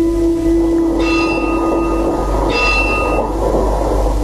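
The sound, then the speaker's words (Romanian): Rumble of a passing city tram, loud and continuous, with a sustained low hum and brief high, ringing metallic tones over the steady roar. “Trece tramvaiul numărul 7. Parcă trece prin pământ.”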